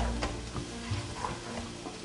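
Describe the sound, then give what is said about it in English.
Tomatoes stewing in a pan give off a steady, soft sizzle with light stirring and scraping noises running through it, continuous and fairly quiet throughout. “So I'm gonna let the tomatoes stew up a little bit.”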